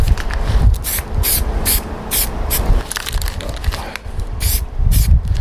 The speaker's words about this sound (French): qu'il faut avec la bombe, c'est mettre des petites couches.